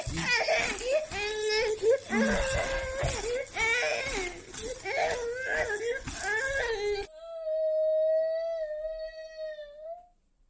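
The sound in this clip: A baby whimpers and cries in wavering, breaking sobs, then ends in a long, steady, high wail held on one pitch for about three seconds before stopping.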